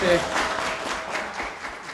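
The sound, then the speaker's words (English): An audience applauds at a public event, a broad, even patter of many hands clapping that holds steady for the whole moment, with a voice heard over it at the start. “How about a big round of applause for Howard Conyers?”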